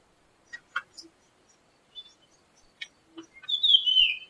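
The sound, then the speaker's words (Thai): Birds chirping as they wake at dawn: sparse, faint, short tweets scattered across the first few seconds, then a longer, louder warbling call that carries to the end. “ฟังเสียงนกก็กำลังตื่น”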